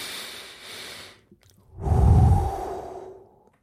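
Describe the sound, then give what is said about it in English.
A deep breath taken before a prayer: a soft airy hiss, then one strong, full-bodied breath swelling and fading over about a second, with no talking. “Let's have a breath and a prayer.”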